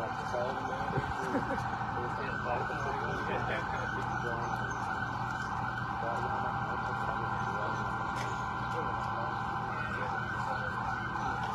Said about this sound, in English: That's the Bearcat making that noise.